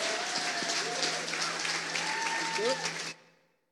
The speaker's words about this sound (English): So let's put our hands together and let's welcome your worship pastor